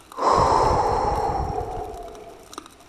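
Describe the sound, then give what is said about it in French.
A deep, drawn-out breath, part of a guided breathing exercise of inhaling through the nose and exhaling through the mouth, sounds as one long, airy rush that starts loud and slowly fades, heard alone without talk. “prenez trois grandes inspirations par le nez et on expire par la bouche.”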